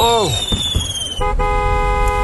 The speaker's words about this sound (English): A stray spark just got under the canvas where the fireworks are stored, and they're all blowing at once.